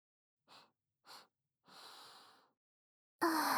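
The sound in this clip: Sniffing at a pleasant smell: two short, soft sniffs, then a longer drawn-in breath through the nose, followed by a sudden louder sound at the very end.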